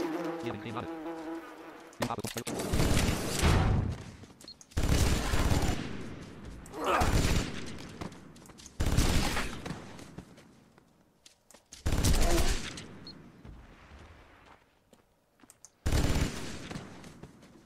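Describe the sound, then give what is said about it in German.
Rapid gunfire from the Vulkan weapon in a video game, a buzzing stream of shots in several separate bursts with short pauses between them, loud and harsh against a quieter background. “Wahrscheinlich, weil ich gerade mit der Vulkan geschossen habe.”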